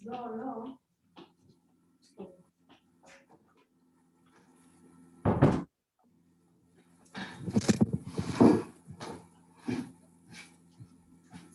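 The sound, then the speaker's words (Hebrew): A door is closed in a room during a lecture: one sharp, loud thud, then a short burst of rattling and knocking. A brief voice comes at the start, with near silence in between. “הנה אחת, נסגור פה את הדלת.”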